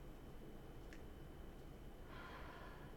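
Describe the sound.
A slow, deep inhaled breath during a guided breathing and neck-stretch exercise, heard as a soft, airy rush in the final second after near silence.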